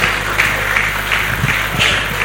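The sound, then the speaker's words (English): A church audience claps its hands in a steady, even beat over a low continuous hum, with no clear talk. “Shall we clap our hands? God bless you. Continue clapping for Christ.”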